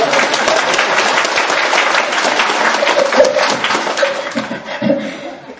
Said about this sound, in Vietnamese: thì chúng ta vỗ tay xin lỗi.